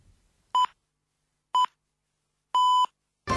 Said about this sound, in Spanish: Esto pita, 12:30.